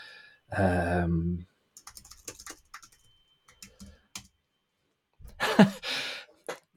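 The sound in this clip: Computer keyboard typing while looking up a name: scattered, faint keystroke clicks in uneven clusters, preceded and followed by short bursts of breathy vocal sound.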